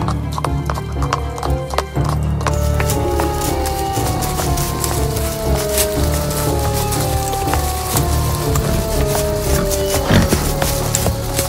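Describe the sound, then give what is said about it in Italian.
Horses' hooves clip-clop steadily as riders set off, with a horse whinnying along the way, all under continuous background music. “E così prepararono i loro cavalli e partirono, senza soldati, perché non volevano rendere il saggio più arrabbiato.”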